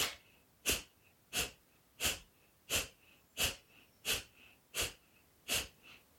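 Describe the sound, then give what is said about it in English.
Forceful breathing exhalations, each drawing the navel and diaphragm in as part of a breathing exercise. Nine sharp, hissing puffs of breath come in a steady, even pumping rhythm, loud and alone with no talk. “you draw the navel, the diaphragm in on the exhalation. So it sounds a bit like this.”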